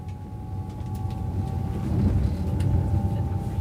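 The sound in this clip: Steady low rumble of a train ride with a faint tonal hum above it, the rolling noise swelling slightly partway through and then continuing evenly.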